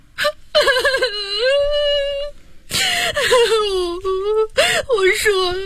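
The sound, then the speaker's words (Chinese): A woman cries and wails during questioning about her husband, several drawn-out sobbing bursts with sharp gasping breaths between them, loud and high-pitched. “别哭了。”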